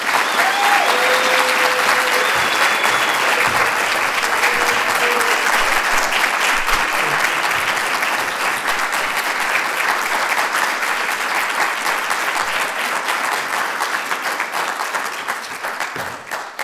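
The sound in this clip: Audience applause welcoming a speaker: dense, steady clapping from a crowd that holds at full strength for around sixteen seconds and only begins to thin slightly at the very end.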